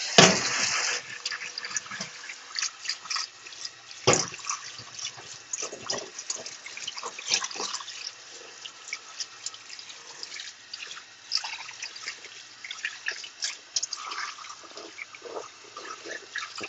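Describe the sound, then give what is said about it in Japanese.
Hot tap water runs over a blackened cast-iron skillet during cleaning, with irregular splashes, drips and knocks that rise and fall in loudness, a few sharper bursts standing out from the steady trickle. “黒くなるんですけど、これをちょっとお湯で流しながら、取っていきます。”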